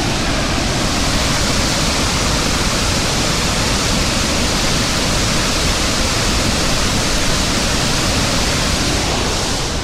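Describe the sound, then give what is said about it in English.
Rushing roar of St. Anne Falls, a 75-meter-high waterfall, heard alone as a steady, dense wash of white noise that stays loud and unchanging from start to finish. “The St. Anne Falls can be viewed in all its splendor from where I'm standing right now. Obviously you can't see it, but I can hold the microphone over to it.”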